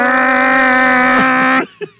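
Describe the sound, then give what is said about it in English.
A motorboat engine sound effect: a loud, steady droning hum rich in harmonics holds for about a second and a half, then cuts off abruptly, leaving a few faint, brief noises. “Junior runs to his boat. Jumps on the boat, starts it, and goes as fast as he can in the dark, away from us.”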